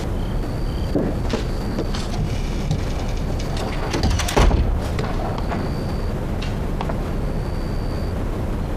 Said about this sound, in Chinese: 把门关上。